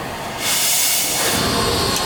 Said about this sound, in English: So right now I'm putting water in the boiler.